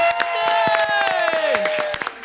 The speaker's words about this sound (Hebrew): הנה זה קורה, מחיאות כפיים!